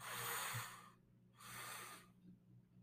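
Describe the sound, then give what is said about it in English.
Two deep inhales through the nose during a breathwork exercise, each a faint, airy rush lasting under a second, separated by a short pause. “Two, two deep inhales through your nose.”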